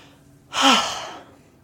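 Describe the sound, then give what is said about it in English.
A single deep, relaxing breath: a soft airy inhale swells into a long sighing exhale lasting under a second, then fades, heard alone in quiet. “What a deep breath of relaxation that is.”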